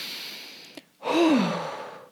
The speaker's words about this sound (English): I take a deep breath.